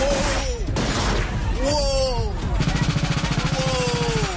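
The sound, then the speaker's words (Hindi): Rapid gunfire at an annual Latin cultural street festival in midtown Toronto on a Saturday evening: a fast, even train of loud cracks fills the second half, after shrill, wavering cries. “तस्वीरें Canada के Toronto की हैं, जहां शनिवार शाम एक प्रसिद्ध street festival के दौरान अचानक गोलियों की तड़तड़ाहट से हड़कंप मच गया।”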